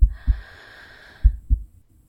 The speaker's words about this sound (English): Just breathe for me. That's right. Just breathe in